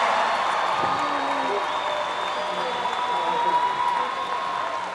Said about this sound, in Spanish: ¡Un aplauso!